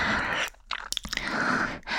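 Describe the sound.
Chewing of ginger candy, with moist, crunchy bites in a few short bursts broken by brief pauses. It is fairly quiet and there is no talk.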